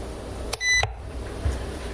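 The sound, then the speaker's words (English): An oven gives one short, steady electronic beep as its time button is pressed while it is being set to 375. The tone is brief and clear over a low background hum. “So now I'm going to press the time button”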